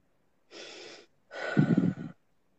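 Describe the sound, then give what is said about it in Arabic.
Two audible breaths with no talking: a soft, airy one, then a longer, rougher breath with a raspy, fluttering edge, both quiet. “بعد تنفسي”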